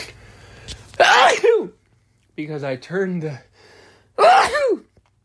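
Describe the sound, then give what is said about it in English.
Sneezes brought on by temperature changes outside: two loud, explosive sneezes, with a voiced, gasping breath between them. “I'm not sneezing right now because I'm sick. I'm sneezing because of the temperature changes outside.”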